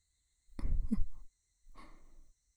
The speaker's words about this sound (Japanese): 深呼吸です。